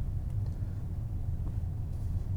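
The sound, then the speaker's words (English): A car driving in rush hour traffic gives off a steady, low engine rumble and road drone that holds at an even loudness throughout, with no talking. “I'm driving out in rush hour traffic right now, and I'm telling you, it is slightly scary.”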